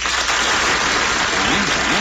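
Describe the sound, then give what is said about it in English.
A studio audience applauds in answer to a question about whether a woman gets credit more easily than a man. The clapping is dense and continuous, with a thin, muffled tone. “I'd like to ask the audience a question. How many of you think that a woman will get credit easier than a man? Applaud.”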